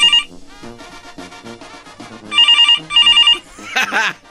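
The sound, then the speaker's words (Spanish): A telephone rings in a radio studio, giving two loud, bright, warbling electronic bursts in quick succession, with quieter tonal sounds before them and a short voice right after. “Caray, estamos teniendo ahorita llamadas. Ahí está sonando el teléfono.”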